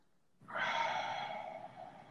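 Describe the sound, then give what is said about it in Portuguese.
A long, soft breath out during a guided breathing exercise: one breathy, airy exhale that rises quickly, holds steady, then slowly fades, with no talk over it. “Inspira aqui agora. Solta o ar.”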